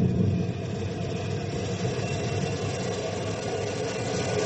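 An engine runs in gear while a gate is being raised, giving a continuous low rumbling drone that stays even and steady throughout.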